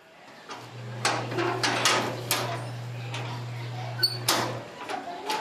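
A heavy metal grille gate in central Manila is opened with a few sharp clanking, rattling bursts and scrapes, fairly quiet, over a steady low hum.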